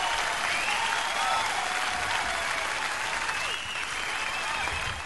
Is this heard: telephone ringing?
no

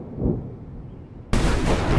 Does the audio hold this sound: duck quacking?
no

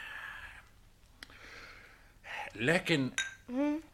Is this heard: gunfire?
no

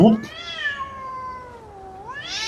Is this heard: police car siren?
no

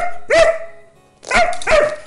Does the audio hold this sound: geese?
no

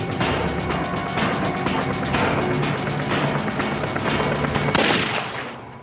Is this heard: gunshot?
yes

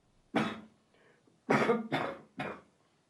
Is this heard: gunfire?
no

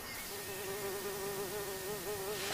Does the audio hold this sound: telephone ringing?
no

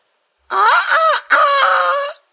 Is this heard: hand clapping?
no

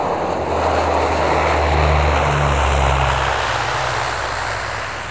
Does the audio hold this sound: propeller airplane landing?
yes

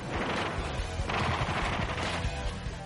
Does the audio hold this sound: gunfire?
yes

